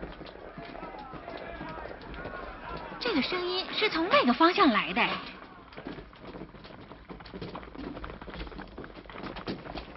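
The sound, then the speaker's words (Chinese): Footsteps of many animals, big and small, tame and fierce, walking in pairs toward Noah's ark in a dramatized story: a steady running, trampling patter that swells into a louder, busier burst midway, with people talking over it. “我看得见了，是动物啊，从四面八方向方舟走来的，大的、小的、温顺的、凶暴的”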